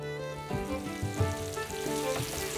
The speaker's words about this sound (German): Am Spieß schmoren die Braten.